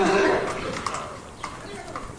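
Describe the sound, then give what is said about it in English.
A horse makes a brief vocal sound, loudest at the very start and tapering off over about two seconds, followed by a few faint soft knocks. “Nelly the horse just said hi. And he's a fan of Arnold.”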